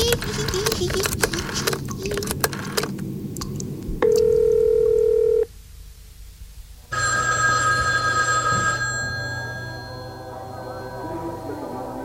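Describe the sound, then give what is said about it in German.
A telephone is dialed and then rings. Clattering, clicking dialing sounds come first, then a steady electronic tone, a brief lull, and a loud, bright ringing that fades slightly toward the end. “Ich rufe meinen besten Freund an.”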